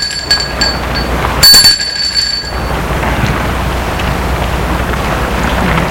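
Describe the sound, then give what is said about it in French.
A doorbell rings at a parents' home in the evening: one bright, bell-like ring near the start with high overtones that fade over a couple of seconds, then steady background hiss. “Le soir, il sonne chez ses parents.”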